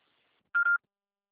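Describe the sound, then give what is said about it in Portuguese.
A voicemail beep sounds before a message is recorded, a single short electronic tone, steady and mid-high in pitch with a brief dip in the middle, alone against silence. “Deixe seu recado após o sinal.”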